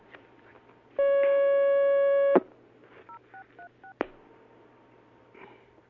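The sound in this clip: Telephone line tones on a phone-in question line: a steady buzzing tone of about one and a half seconds ends in a click, then a quick run of short dialing beeps, all faint and alone with no talk.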